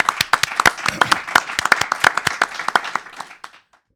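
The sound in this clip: Audience applause for a guest author at a live event in a community bookstore: many sharp, scattered claps in quick succession that thin out and fade to silence after about three and a half seconds.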